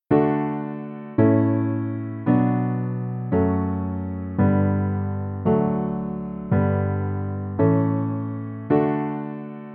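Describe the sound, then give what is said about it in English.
Basic chord progression of a famous Baroque canon, played as nine evenly spaced sustained chords. Each is struck, then slowly fades before the next, in a steady moderate rhythm with no voices. “If we break this progression down to the most basic version, Pachelbel's canon sounds like this.”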